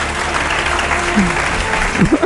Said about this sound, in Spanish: qué ovación